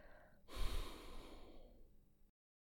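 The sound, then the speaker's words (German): A slow exhale through the right nostril during alternate-nostril breathing: one soft, airy breath that begins with a breathy rush and trails off over nearly two seconds. No one speaks. “Öffne das rechte Nasenloch und atme langsam durch dieses aus.”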